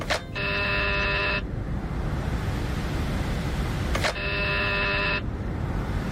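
Door buzzer rung at the entrance of number 72 on Calle Princesa, sounding as two steady, buzzy tones of about a second each, separated by a long pause, over constant background hiss.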